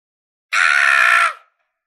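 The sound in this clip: A loud shout or scream from a bald character in a fantasy tale as he swells to a hundred meters tall. It is one harsh, steady cry lasting under a second, with no talk around it.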